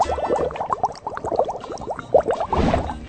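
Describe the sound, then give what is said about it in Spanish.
Water runs and splashes in a laundry sink while a small cloth rag is washed by hand, giving a busy, irregular stream of sloshing and gurgling at a fairly steady, moderate loudness. “Acá ando entre sonidos de lo que es mi lavadero.”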